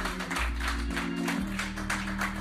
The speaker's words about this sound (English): Clap your hands and give the Lord a hand clapping.